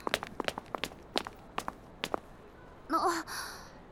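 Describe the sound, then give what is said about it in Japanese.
Quick footsteps of someone who has suddenly broken into a run, many light, evenly spaced steps in a fast rhythm, followed by a short breathy gasp at the end; no talking. “急に走り出してどうしたの？”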